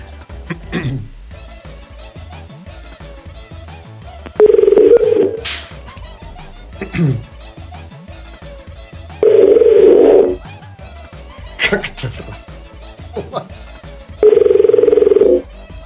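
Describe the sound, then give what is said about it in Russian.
A telephone ringback tone plays while a caller waits for someone to pick up: three long, steady, mid-pitched tone bursts about five seconds apart, with quieter scattered sounds in the gaps between. “Чего они так долго подходят? Алло? Алло, Елизавета?”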